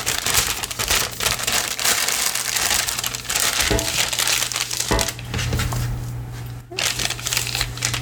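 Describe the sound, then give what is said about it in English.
Parchment paper crinkles as it is laid down, giving a steady, busy crackling that runs the whole clip with a few sharper crackles near the middle. “with the same parchment paper. Lay the parchment paper down.”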